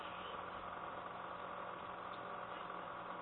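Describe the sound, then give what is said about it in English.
A motor runs faintly and continuously behind a conference call, a steady, unchanging low hum with no breaks or swells. “There's like a little yeah. background noise. Yeah, like a motor running.”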